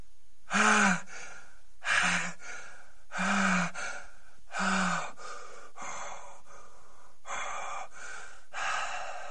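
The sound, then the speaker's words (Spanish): A man gasps in ragged bursts as he tries to control his breathing, about seven sharp intakes spaced roughly a second apart. The first few are harsh with a voiced catch; the later ones are fainter and airier, with no talking. “Paul trata de controlar la respiración”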